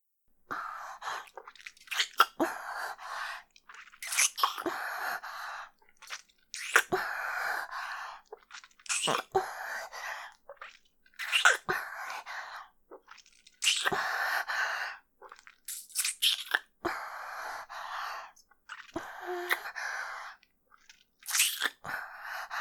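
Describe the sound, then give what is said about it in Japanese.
Soft wet kissing and lip-smacking sounds in an intimate roleplay, repeating in many short bursts with breathy gaps between them and no speech. “キスからさせていただきますね”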